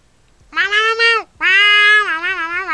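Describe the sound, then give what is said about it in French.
A cat meowing twice, first a shorter call and then a longer, drawn-out one. Both are loud and tonal, and the pitch wavers toward the end of the second meow. “c'est le chat qui fait des interférences”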